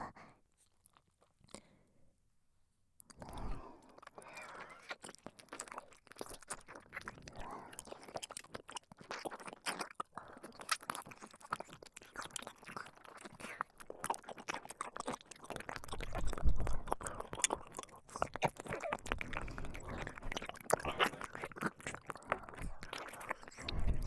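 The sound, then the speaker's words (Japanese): Wet licking and mouth sounds from two voices in an ear-licking ASMR recording: soft, close, sticky clicks and smacks run almost continuously after a brief silent opening, mixed with faint whispers. “二人で耳舐めさせていただきますね。 じゃあ、行くよ。”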